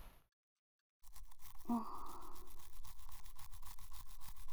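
A toothbrush brushing the inner side of another person's teeth while their head rests on a lap, a steady wet scrubbing that starts after a second of silence and continues without a break.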